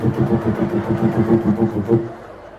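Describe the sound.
Engine revving from a motorcycle whose exhaust pipe has been cut down twice, a loud, throaty rumble pulsing in quick rhythmic bursts before easing off at the end.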